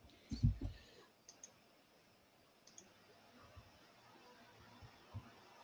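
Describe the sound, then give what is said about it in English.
Computer mouse clicks on an add-video button: a few soft clicks with a louder thump near the start, followed by scattered faint taps over a low, quiet background. “Click on add video. Where's the add video button? Oh, here. Okay.”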